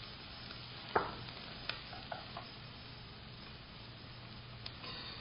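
Onions fry and are stirred in a pan, a soft, steady sizzle with a few sharp scraping clicks from the stirring, faint overall.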